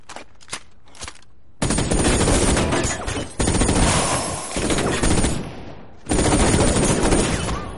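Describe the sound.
Gunshots fired at a man in a 2014 action thriller scene: a few sharp, isolated shots, then long, loud stretches of rapid continuous gunfire broken by brief pauses.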